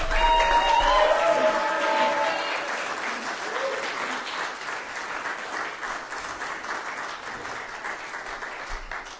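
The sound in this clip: Audience applause at a live reading event: a dense, steady wash of many hands clapping, loudest at the start and easing off slightly while it continues for the whole stretch.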